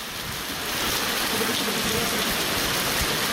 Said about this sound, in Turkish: Dolu ciddi anlamda etkili oldu.